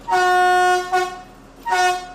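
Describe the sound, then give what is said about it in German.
A train horn sounds as the departure signal at a station in Quedlinburg, giving one long steady toot followed by two shorter blasts, loud and harmonically rich with a clear, piercing tone. “Ich glaube, das war unser Signal für die Abfahrt.”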